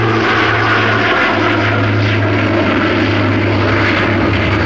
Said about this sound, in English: The Britannia sets course from Bristol for its first ever overseas flight to Libya, only 4.5 flying hours away.